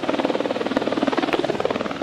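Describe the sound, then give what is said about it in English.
Helicopter rotor thumping steadily as the aircraft lowers a long steel ring-mesh net across a creek canyon. A rapid, even beat of many blade pulses runs loud and continuous, with no voices. “A helicopter drops down a long mesh net of rings.”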